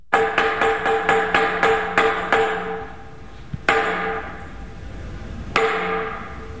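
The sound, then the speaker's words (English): A semantron is struck to summon Greek Orthodox monks at a monastery in southern Sinai. Many quick, sharp wooden knocks come in a rapid series, then two louder strikes ring out after longer pauses. “Sound of a semitron used to summon Greek Orthodox monks, that being played at St. Catherine's Monastery in southern Sinai.”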